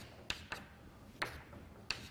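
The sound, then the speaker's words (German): Faint writing strokes as an equation is written down: four sharp, brief taps at uneven intervals. “Also schreiben wir es nochmal ganz kurz hin.”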